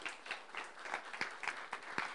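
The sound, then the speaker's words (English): An audience claps in a church, a faint wash of scattered, uneven hand claps with a few sharper individual claps standing out, with no voices. “Clap if you want to clap for him.”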